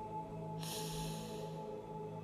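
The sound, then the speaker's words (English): A single deep breath drawn in as a soft, airy rush lasting about a second, over a steady low hum. “Take 2 more deep breaths”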